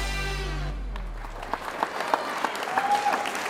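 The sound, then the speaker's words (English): Live studio audience applause: a low held musical note fades away as steady clapping takes over and continues to the end. “Let's hear it for you, our live studio audience. Yeah, you guys rock.”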